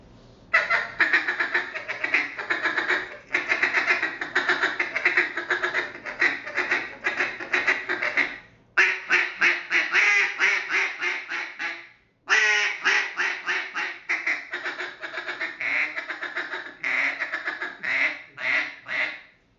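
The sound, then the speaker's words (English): A double reed duck call is blown in a slow feed with quacks. Raspy, rapid chattering notes run in long strings broken by two short pauses, loud and alone. “here's the double reed and I'm just going to do a slow feed”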